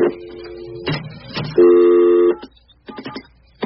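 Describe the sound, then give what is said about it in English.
A telephone number is dialed with 9 first for an outside line. Steady electronic phone tones are followed by a quick run of several short keypad beeps. “You have to dial 9 first, don't you?”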